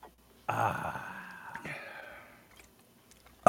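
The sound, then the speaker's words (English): A sharp, breathy exhale after knocking back a shot of Captain Morgan rum, a sudden airy burst that trails off slowly over about two seconds. “Okay, I'll take a shot of Captain Morgan.”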